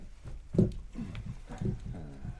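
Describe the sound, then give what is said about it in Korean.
Tangled footsteps of a group of people coming down the stairs, a few soft, uneven thumps overlapping one another, faint and with no voices. “어, 저 사람들 내려오는 모양이군요. 교준이 턱짓으로 계단 쪽을 가리켰다. 발소리가 뒤엉키며 한 무리의 사람들이 모습을 나타냈다.”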